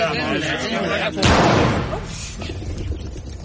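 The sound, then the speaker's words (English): A single sharp gunshot cracks out near a hedge gap in a field, then decays over about a second, with people talking around it. “Who on earth fired that gun?”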